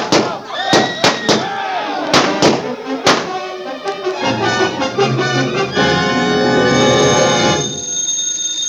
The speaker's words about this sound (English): Larry, look out. He's still got his gun. Larry!